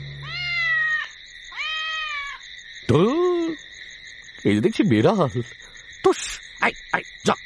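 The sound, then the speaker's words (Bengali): A cat meows three times with drawn-out tonal cries, then gives a harsher yowl, followed by a few sharp knocks as it is chased away. “ভজবাবু ভেতরে ঢুকলেন, বিড়ালটা তাড়া খেয়ে পালালো।”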